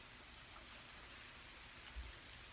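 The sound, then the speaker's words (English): A rare rainstorm outdoors: faint, steady hiss of falling rain, even and unbroken, with no voices. “I'm outside and it's a rare rainstorm, but I'm just sitting on the ground.”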